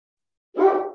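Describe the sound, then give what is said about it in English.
A single short dog bark breaks the silence, fairly loud and alone, cut off at the very end. “my dogs are all worked up now.”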